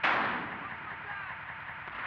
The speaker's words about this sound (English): Range, 32 meters. 32 meters. Projection, 39 degrees. 39 degrees. Fire!